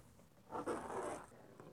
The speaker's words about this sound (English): I made a mark there. So we'll draw a level line now right on top of that.